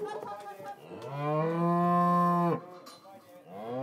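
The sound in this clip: A cow moos loudly during a cattle drive by an agricultural cooperative; it is calling for a nearby calf. One long, sustained moo dominates, with shorter, rougher bellows before it and another call starting at the end.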